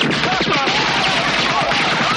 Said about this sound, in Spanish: De lo alto de una cabaña sale Highway y empieza a disparar al batallón.